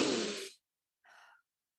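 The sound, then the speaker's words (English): Two quiet breaths taken during a guided breathing moment. The first is a louder, broad rush of air, and after a short silence a softer, thinner breath follows. “Take a breath with me.”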